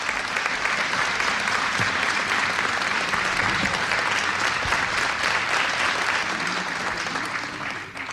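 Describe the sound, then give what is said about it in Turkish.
Warm audience applause for a choir and its conductor at a Turkish folk song concert. Dense, even clapping holds steady for about eight seconds, then tapers off at the very end. “Koromuzu ve Şef Mehmet Erenleri gönül dolusu alkışlıyoruz efendim.”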